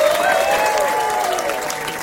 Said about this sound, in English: Put your hands together. Welcome back to the New York Stage, Mr. Rod Carter.